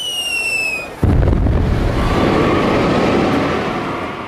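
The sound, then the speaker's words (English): A thrown bomb explodes after a high whistle that falls in pitch. A sudden, very loud blast follows and turns into a long, dense rumbling roar that fades slowly. “Number five, a Russian revolutionary throws a bomb at evil Tsar Alexander II.”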